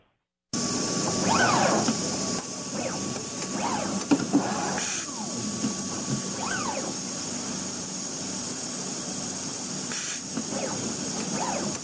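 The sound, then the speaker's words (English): A stringer machine joining individual solar cells into strings of ten makes a steady, loud hiss with spray-like bursts of air and faint whining tones over it. The noise runs continuously, with no voices. “That's the sound of a machine called the stringer. It connects individual solar cells to each other to form a string of 10 solar cells.”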